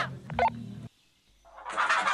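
Hens clucking in a playful radio message, a few short squawky calls, then a pause and a louder burst of clucking at the end.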